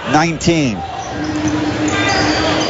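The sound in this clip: Basketball dribbling on a court during a high school boys' sectional semifinal game. Squeaky tones sound at the start, then steady crowd noise and voices continue under the play.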